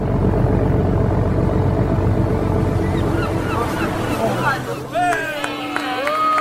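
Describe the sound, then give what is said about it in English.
A ferry comes into port on the sea, its steady low engine rumble mixed with water noise. Higher, curving cries rise over it near the end. “We're coming into port now, Captain.”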